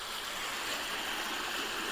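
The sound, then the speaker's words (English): Running water of a brook, a steady, even rushing hiss that holds at one level for about two seconds with nothing else audible. “The sound you can hear is running water. I'm by a brook.”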